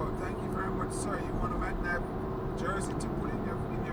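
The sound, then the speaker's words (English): Steady road rumble fills the back seat of an Uber car riding from New York to Philadelphia, a constant low drone with muffled voices faintly underneath. “Back of an Uber on the way from New York.”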